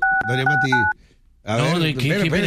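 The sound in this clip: Touch-tone keypad beeps as a telephone number is dialed for a call: a few short dual-pitched tones sound under a talking voice, then a brief pause before more speech.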